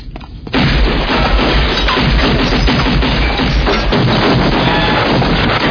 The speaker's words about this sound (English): Gunfire. That's what it sounded like, sir.